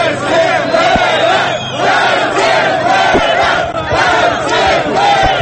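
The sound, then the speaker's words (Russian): Protesters make noise outside city hall: a loud, continuous roar of many shouting and calling voices that keeps going without a break. “Неподалеку от мэрии скучал ОМОН, а за ее окнами продолжали шуметь митингующие.”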